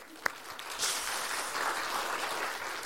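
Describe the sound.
An audience applauds to welcome a speaker at a service. The clapping is a soft, even patter that starts after a brief click and continues steadily to the end.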